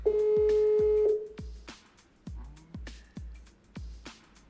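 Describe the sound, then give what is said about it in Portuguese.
A phone call rings out unanswered: one steady, mid-pitched ringback tone lasting about a second over a thumping rhythmic beat, which keeps going after the tone stops. “Aí o mano não atende a ligação. Ah, liguei, velho. Me liga aí que o bagulho é doido. Eu ligo, o cara não atende.”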